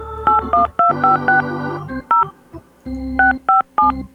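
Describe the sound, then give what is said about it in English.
Touch-tone dialing on an old telephone: a brisk run of paired beeping tones in irregular bursts separated by short pauses, loud over a low steady hum. “Gonna dial up the old telephone here”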